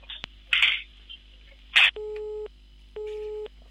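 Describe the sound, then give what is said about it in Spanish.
Telephone busy tone after a dropped phone call: two steady, mid-pitched beeps of about half a second each, separated by a short gap, following a few brief bursts of noise and a click. “se nos cortó la llamada”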